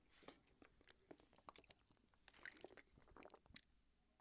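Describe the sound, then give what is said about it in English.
Soft, wet mouth sounds as someone takes a drink of water: a run of faint squishy sips and swallows, ending in a sudden louder burst. “I need a drink of water. Hang on.”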